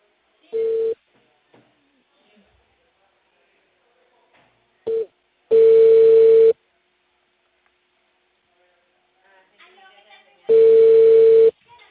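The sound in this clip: Ringing tone of an outgoing phone call: two short tone blips, then two steady one-second rings about five seconds apart, with faint clicks between them.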